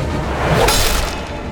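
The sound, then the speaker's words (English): A sword swinging down with a fast whoosh, one loud airy swish peaking midway through dense noise, with no voices. “Xuanzang turned back to see Li Biao swinging the sword down.”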